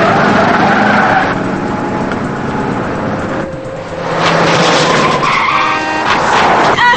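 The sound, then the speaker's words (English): Loud, sustained tire screeching and engine roar from a car skidding as it swerves around other cars in a chase, dipping briefly midway before the squealing surges again. “Joe braces himself as Lila dodges another car. Thurlow nearly causes an accident, but Lila remains behind him.”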